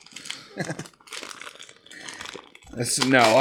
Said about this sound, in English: This is the most plasticky wrapping paper I've ever seen in my life. I love it. Mine have quite a lot of tensile strength as well. And it's hard to tear.